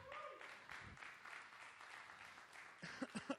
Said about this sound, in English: If everybody from there, if you guys can raise your hands, let's give them a hand.